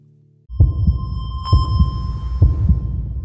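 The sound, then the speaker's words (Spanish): A heartbeat thumps three times in a steady, low double-beat rhythm over a constant hum, starting after a brief quiet lead-in. “Latidos. Tengo latidos. Tengo una multitud de guerreros bailándome en el pecho.”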